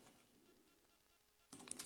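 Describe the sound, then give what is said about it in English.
Clicking on a computer while going through notes: after a near-silent stretch, a few faint, sharp clicks come close together at the very end, alone with no voice. “I'm going through my notes and y'all forgive me because I'm clicking on some of the tags here.”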